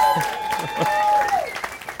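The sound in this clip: Audience applause at a competition, a dense patter of clapping that stays steady for about two seconds, with a sustained cheering voice riding over it and dropping in pitch near the end.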